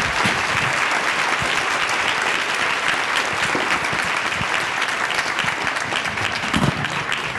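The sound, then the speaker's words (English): An audience thanks a panel with steady, dense applause, a continuous wash of clapping that holds at an even, fairly loud level throughout. “I want the audience to join me in thanking this really talented panel for taking their...”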